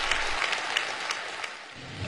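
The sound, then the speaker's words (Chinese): Warm applause in a village party branch meeting room: fairly soft, even clapping with a few sharper individual claps standing out, dipping slightly near the end. “北京人民大会堂的掌声不断，梁家河村党支部会议室同样回响着热烈的掌声。”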